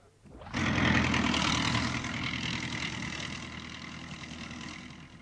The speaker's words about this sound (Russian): Проверьте, как управляет трактором.